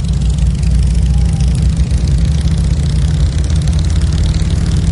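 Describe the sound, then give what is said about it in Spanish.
Motorcycles running along a road near a cabin give a continuous, fairly loud engine drone with a heavy low hum, steady and unbroken throughout, without voices. “Las motos circulan por la carretera cercana a la cabaña de Bjurman.”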